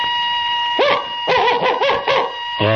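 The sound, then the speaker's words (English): A person imitates a dog barking with a few short, voiced yapping barks over a steady background hum. “If I told you to bark like a dog,”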